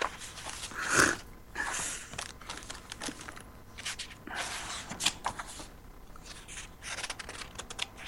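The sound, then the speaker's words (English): Pages of a book full of folded-down corners are flipped through, producing quick papery swishes and rustles in scattered bursts with short pauses between, mostly soft. “I fold the page, and so this book is just full of folds. Wait, I need to find it.”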